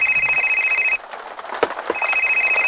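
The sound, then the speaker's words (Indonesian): Telephone ringing with a steady electronic trill, in two bursts separated by a pause of nearly a second that holds a few faint clicks and knocks. “Ada apa ya Bu kok tiba-tiba telepon?”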